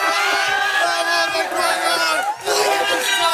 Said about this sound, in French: Mais regardez, ils sont là, nos amis équatoriens. C'est une ambiance incroyable.